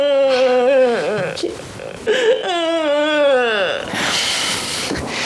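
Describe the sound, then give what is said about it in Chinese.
A person crying in drawn-out, wavering wails whose pitch sags and trembles, with ragged sobbing breaths between them, loud and continuous. “别哭了啊”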